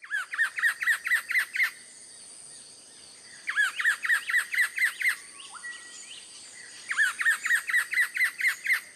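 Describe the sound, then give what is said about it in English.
Buff-breasted paradise kingfisher calling in far north Queensland, with three bursts of rapid, evenly repeated high, slightly harsh notes separated by short pauses. “the first to correctly identify that it's the buff-breasted paradise kingfisher. Quite a mouthful, but a truly spectacular bird.”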